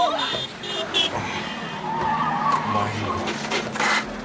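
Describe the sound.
A car skids with its tires squealing, a rough, noisy scrape of rubber on road that holds steady at a fairly loud level for about four seconds.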